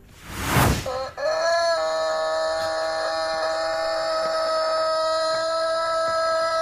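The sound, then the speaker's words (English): A rooster in an agitated state lets out one long, strenuous cock-a-doodle-doo, opening with a harsh, loud burst and stretching into a sustained, steady, reedy tone that carries on for several seconds. “it's so long and strenuous, this call, that it runs out of puff at the end and falls over. It's in such an agitated state. Okay. And you can hear the fall at the end of this very long cock-a-doodle doing.”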